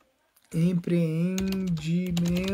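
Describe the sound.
Quick key clicks on a computer keyboard as a search is typed into Google, a steady run of tapping under a voice talking.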